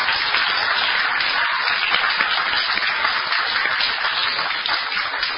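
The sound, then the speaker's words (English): An audience applauds after a presentation, with a dense, even wash of many hands clapping at a steady level that tapers off slightly at the very end. “Another round of applause and a big thank you”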